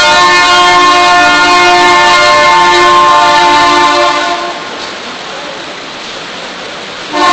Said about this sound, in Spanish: Qué metro más modernizado, ¿verdad?